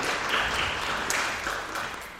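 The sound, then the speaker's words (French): Audience applause at an event as a speaker is introduced, a soft, dense and steady wash of clapping with no distinct single claps. “Je vous demande également de l'applaudir.”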